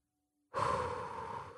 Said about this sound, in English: First, let's do an inhale.